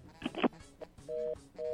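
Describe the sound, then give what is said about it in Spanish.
A dropped phone call leaves quiet telephone line tones: two steady, mid-pitched electronic beeps in the second half, after brief faint clicks and a voice earlier. “Se nos cayó esa llamada.”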